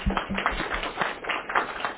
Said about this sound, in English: so if you give her a round of applause for taking this position.